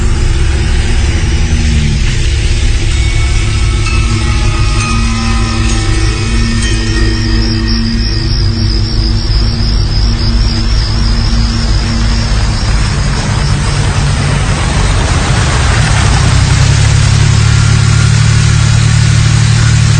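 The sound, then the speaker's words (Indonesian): A car engine drives off in a rush, a loud, continuous rumble with revving as it accelerates, and a shift in engine tone near the end. “Buru-buru aku langsung tancap gas pulang ke rumah.”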